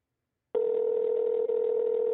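Telephone ringback tone on a call to a Sprint mobile line that rings through to voicemail: after a moment of silence, one steady, continuous electronic tone sounds at an even, moderately loud level, with no voices.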